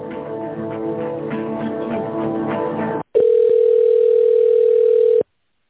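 A telephone line during a call transfer: a few seconds of hold music cut off abruptly, then a loud, steady, continuous line tone lasting about two seconds before silence.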